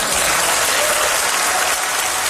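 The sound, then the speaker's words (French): Members of the European parliament give a standing ovation: dense, steady applause from many hands, sustained at an even level without a pause. “Mark Carney a eu droit à toute une ovation donc des députés de la Commission européenne.”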